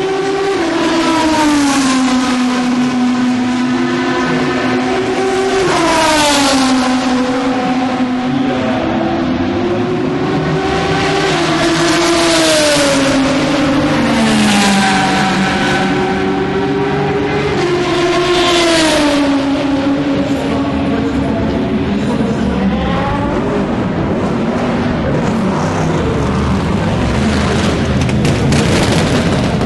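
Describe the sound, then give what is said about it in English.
A Corvette race car leaves the pit with a rough, dirty engine roar, loud and continuous, its pitch repeatedly climbing and dropping as it revs through the gears, with no voices. “That leaving the pit. Dirty, dirty noise. There's another Corvette actually in the pit just to my left.”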